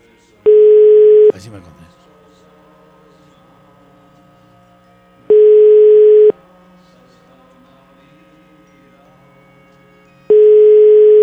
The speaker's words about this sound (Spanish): A ver, a ver si me contesta. Ponle la línea 1.